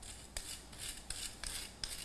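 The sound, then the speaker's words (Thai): A spoon pressing down on food to mash it fine and even: five short, rasping scrapes in a steady rhythm, each a quick gritty stroke over a quiet background. “ก็จะกดๆหน่อยนะครับก็จะใช้ช้อนกดลงไปหน่อยครับ”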